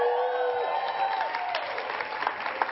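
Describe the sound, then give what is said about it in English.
A church audience claps and cheers for a newly engaged couple: a dense, steady wash of applause with raised voices and whoops rising through it, holding at an even level. “Give them a big clap and a big cheer, because Zach asked the question and she said yes.”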